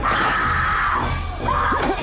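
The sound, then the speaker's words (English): A woman screams as a knife-wielding killer attacks in a room: one long, sustained high scream, then a shorter second cry over a noisy, dense background. “The killer knifes Bobby, then lurches at the screaming Cindy, who runs from the room.”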